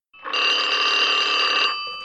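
A telephone bell rings in a late-1930s setting, one continuous bright metallic trill of about one and a half seconds, loud and alone.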